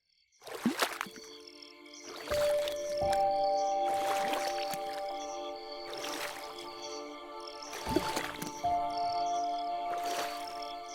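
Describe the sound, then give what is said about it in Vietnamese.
Paddle strokes of a small three-plank wooden boat being rowed through a narrow canal, with a few rhythmic splashing pulls spaced a couple of seconds apart over a steady tonal music bed. “Tư Liền chèo xuồng ba lá, luồn lách qua con rạch nhỏ.”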